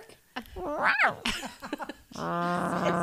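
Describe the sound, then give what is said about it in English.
A dog whose bark comes out cat-like, giving a few wavering, rising and falling yowls, then a longer steady whining cry near the end. “Is that going to bark? It's like a cat now. Her bark has gone downhill.”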